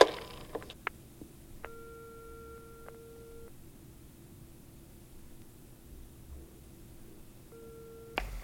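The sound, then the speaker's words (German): Telephone ringing tone on the line: two long, steady electronic tone bursts separated by a quiet gap, faint over constant line hiss, with a few brief clicks at the start. “Zurück in ihrer Zentrale lauschte Justus dem Tuten in der Leitung.”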